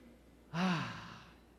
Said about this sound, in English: On the count of three, I want you to take a deep breath.